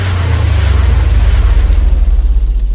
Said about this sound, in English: A number of assistants then lit the rockets all at once and stepped